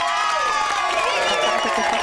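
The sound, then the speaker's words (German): Cheering sound effect in a quiz show, with a crowd roaring and whooping and high, wavering whistle-like calls riding on top. It stays loud and continuous for the whole couple of seconds. “Der Jubel hier ist ein bisschen zu früh losgeblendet, aber das kriegen wir.”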